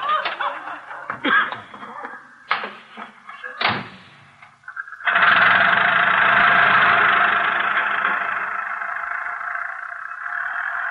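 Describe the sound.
A car engine starts for a ride and settles into a steady, loud running hum. Before it, a few separate knocks and clicks are heard, like a door and handling. No one speaks.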